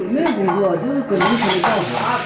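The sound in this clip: Dishes and cutlery clink in a family kitchen where fatty pork and spicy eggplant are cooking. A busy clatter of plates and utensils runs under women's voices talking.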